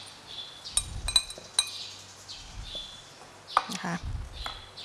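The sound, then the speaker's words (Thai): Light clinks of glass and dishes as egg yolks are put into a bowl: a few sharp, faint taps and chinks come at irregular moments over a quiet background. “เราก็เริ่มจากนำไข่แดงนะคะลงมาใส่ในภาชนะก่อน”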